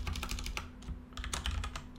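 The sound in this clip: Code being typed on a computer keyboard: many quick, light keystroke clicks in two bursts with a short lull between them, faint over a low steady hum.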